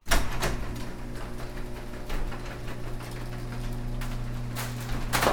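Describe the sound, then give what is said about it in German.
A motorized garage roller door opens, giving a steady mechanical whir with a constant low hum that runs throughout, with brief clattering knocks near the start and the end. “Das Garagentor öffnet sich.”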